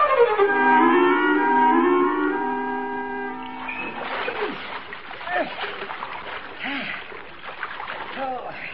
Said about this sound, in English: Ain't you gonna wash up